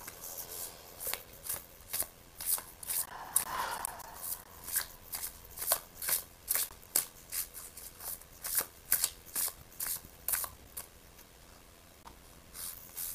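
Tarot cards being shuffled before a card is drawn: many quick, papery riffles and slaps arrive in uneven bursts, crisp and fairly soft, with no talking.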